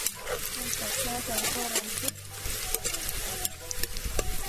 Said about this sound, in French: Je patiente encore quelques secondes pour que l'huile chauffe un peu. Et maintenant, je prends l'oignon qui est déjà bien découpé, je mets l'oignon dans la marmite.